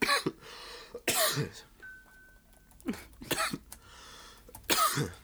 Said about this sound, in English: Excuse me after my cough attack.